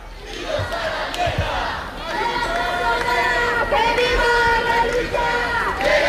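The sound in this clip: Protest crowd chanting outside Spain's Congress of Deputies on Carrera de San Jerónimo, Madrid, honouring a late activist: many voices raise a loud, sustained chant that swells after a few early thumps and keeps going without a break.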